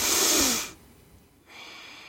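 A person imitates a forceful Kundalini yoga breathing technique: one loud, rushing breath, then a brief pause and a quieter, steady breath.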